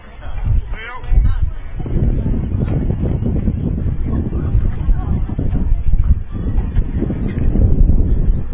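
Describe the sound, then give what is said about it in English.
Strong wind buffets the microphone at a baseball game with a loud, continuous low roar and rumble. A commentator talks steadily over the gusts throughout. “Wind really picking up here now.”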